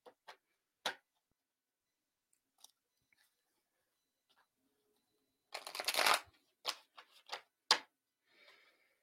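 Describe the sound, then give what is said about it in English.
Tarot cards being shuffled: scattered faint taps and card flicks give way to a loud rustling burst of shuffling, then several shorter slaps and riffles of the deck. No talking. “I'm shuffling three times and I'm just asking my cards what we need to know about the summer solstice.”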